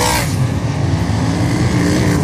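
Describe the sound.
Race cars lapping a wet, drying track: a continuous, steady engine roar that holds an even loudness throughout, with no clear breaks between passes.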